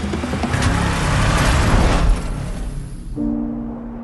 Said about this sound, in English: As Danny looks up from the wristband, Thelma and Ben speed away.